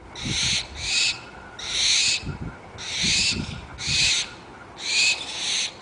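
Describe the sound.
A barn owl calls in a series of harsh, breathy, hissing screeches. Each lasts under a second and they repeat at a fairly steady rhythm, loud over a faint low background hum.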